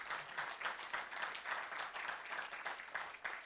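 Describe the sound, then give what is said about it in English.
Audience applause, a faint, dense and even patter of many hands clapping continuously with no talk. “We can applaud that, right?”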